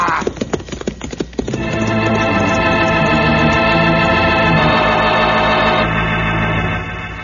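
A horse gallops at full speed, its hooves beating in a quick, uneven patter for about a second and a half before a steady, held tone takes over and continues until the end.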